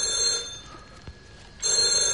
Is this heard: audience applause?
no